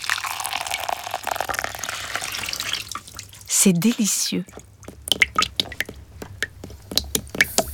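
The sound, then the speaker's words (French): Water runs and splashes over hair at a white salon washbasin, a steady wet rush with squishy sounds, then stops and gives way to scattered drips. A person speaks briefly in the middle. “Tu entends le bruit de l'eau qui coule sur les cheveux?”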